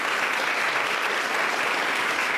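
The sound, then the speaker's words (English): Audience applause for a poet and author introduced at a literary reading, a dense, even wash of many hands clapping steadily throughout with no voices above it. “A round of applause for Yiga.”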